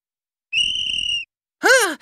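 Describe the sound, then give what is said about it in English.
A sports teacher blows a whistle: one steady, sustained shrill blast, followed after a short pause by a brief voiced cry that rises and falls. “My sports teacher, Mrs. Green, is blowing the whistle.”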